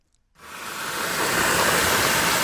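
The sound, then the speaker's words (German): Running water starts abruptly after a brief silence and quickly settles into a steady, full hiss that continues at an even level to the end. “Wenn Martin Schlang zu Besuch kommt, dann fließt das Wasser”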